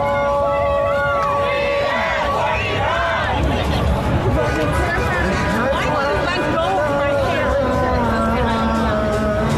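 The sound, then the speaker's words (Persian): An Iranian opposition protest crowd gathers outside the World Cup stadium in Los Angeles before the Iran–Belgium match, a dense, unbroken babble of many voices with some raised, sung or chanted tones rising above the mass. “امروز هم مخالفین جمهوری اسلامی اومدن تجمع اعتراضی خودش رو بیرون ورزشگاه دارن برگزار میکنن.”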